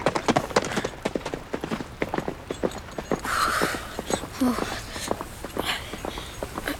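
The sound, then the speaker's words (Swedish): Horse hooves clop as a soldier rides off with the other soldiers, many sharp beats in a steady rapid rhythm at a moderate level with no talk. “Han bara red därifrån och tog de andra soldaterna med sig.”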